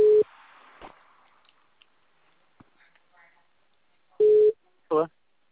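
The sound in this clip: A telephone tone sounds while a call is being placed over a phone line: two short, steady, low-pitched beeps about four seconds apart, separated by near silence with only faint line noise.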